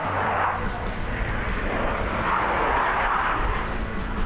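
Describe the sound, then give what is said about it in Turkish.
Military fighter jets, an F-35 and a Eurofighter Typhoon, perform at an air show, giving a loud, steady, broad roar of jet engines that holds for the whole clip. “Savaş uçaklarından ABD Deli F-35 ile Avrupalı Tayfun ise gökyüzünde hünerlerini sergiledi.”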